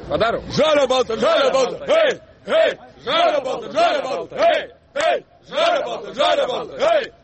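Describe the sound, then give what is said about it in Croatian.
Žalgiris basketball fans sing a fan chant together, loud rhythmic bursts of massed voices in repeated phrases with short gaps, carrying a steady beat. “Da li biste nam otpevali jednu navijačku pesmu Žalgirisa?”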